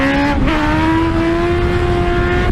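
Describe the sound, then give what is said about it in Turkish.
Motorcycle engine as a rider pulls a wheelie on a road in Başakşehir, Istanbul: a loud, sustained, high engine whine holding a steady pitch throughout. “Sürücü yolda bir anda motosikletin önünü kaldırarak tehlikeli bir yolculuk yaptı.”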